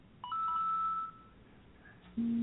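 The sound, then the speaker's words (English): Electronic alert tones from a phone receiving incoming text messages: a clear higher-pitched beep held for nearly a second, then, after a short quiet gap, a lower steady tone starts abruptly. “What is happening? Why is my phone going nuts? I don't know. I don't know. I think I just connected to the network. And I got 5 text messages.”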